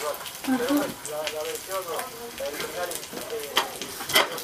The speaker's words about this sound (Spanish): Esta sartén no me gusta, no es que la otra tenía mucha grasa. Y esto se pega, mire